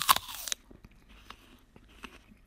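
Crisp bite into a russet apple with a slightly rough skin: one loud crunching snap, followed by a few soft chewing crunches.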